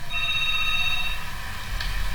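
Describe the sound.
A telephone rings for an incoming call with a steady electronic ring tone that continues through the whole clip, with no voices over it.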